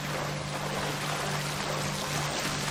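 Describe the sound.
Water splashes and churns as a character swims in an old video game, a continuous, even rushing wash over a faint steady hum.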